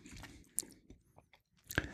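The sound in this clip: Biting into a gin-and-tonic flavored fruit gum gives faint, soft chewing with a few crisp crunchy clicks over a quiet background.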